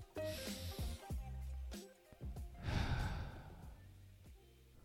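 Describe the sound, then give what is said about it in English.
A slow, deep breath is taken to ease anxiety: a long, breathy, faint inhale and exhale with soft airy hiss. “let's go ahead and take our nice big deep breath first.”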